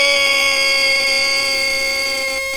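A censoring beep: one loud, continuous electronic tone with a harsh, buzzer-like edge that holds steady for the whole clip.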